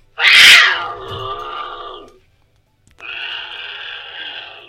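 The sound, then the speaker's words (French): Two calls from a lynx: a loud, strained, wailing cry that flares up at the start and then tapers off, followed after a pause by a second, steadier, softer moan. “Un lynx.”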